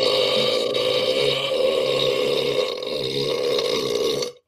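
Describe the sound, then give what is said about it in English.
A single long, loud burp rasps on for about four seconds, deep and gravelly with a steady tone, before it stops abruptly. No talk is heard over it. “That was an impressive burp. That was very impressive.”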